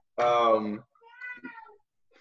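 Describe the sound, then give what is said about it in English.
A house cat lets out one loud, drawn-out meow, followed by quieter, lower vocal sounds. “that's my cat”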